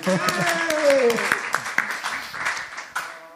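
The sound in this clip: Audience applause welcoming a guest: a ragged patter of hand claps with sharp individual strikes, heard under a person speaking and thinning out toward the end.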